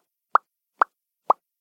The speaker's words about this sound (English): It was just me popping my lips.